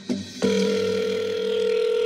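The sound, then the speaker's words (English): A telephone rings on an outgoing call: a brief click, then a steady ringback tone that holds to the end. “When I initially made this connection, I called Francis Watson, Jeff's post-conviction attorney.”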